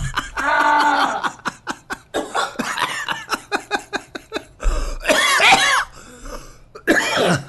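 A person with a lot of mucus coughs and clears their throat: a rough opening clear, then a rapid string of many short, hacking coughs, followed by a few harsher, drawn-out throat clears.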